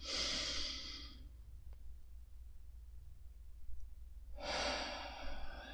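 Slow, deep meditative breathing during a guided meditation: two long, drawn-out breaths, one at the start and one near the end, separated by a quiet pause.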